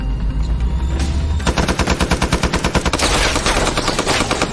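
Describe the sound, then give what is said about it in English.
Rapid automatic fire from a huge bipod-mounted machine gun raking a house with bullets: a loud, sustained burst of many fast, evenly spaced shots that begins after a brief low rumble. “the last soldier fetches a huge bipod-mounted machine gun from an SUV and starts raking the house with bullets.”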